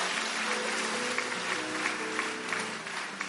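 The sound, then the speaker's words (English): Clapping from a church audience during a sermon: a continuous patter of hands with several sharper claps standing out at irregular intervals, over a low tonal murmur. “Are you clapping or you are doing something like clapping?”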